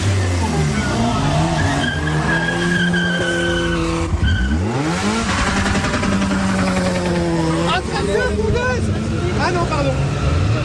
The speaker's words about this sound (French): Ce chauffard fait déraper sa vieille Peugeot au néon violet dans le rond-point.